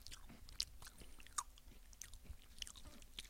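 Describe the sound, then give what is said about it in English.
Crunchy chewing of a Kinder Bueno chocolate bar: quiet, scattered crisp bites and mouth noises in an uneven rhythm, with no talk. “he's eating his Kinder Bueno right now.”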